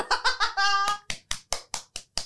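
Audience clapping, heard as a steady series of sharp, evenly spaced claps after a brief burst of laugh-like voiced sounds at the start.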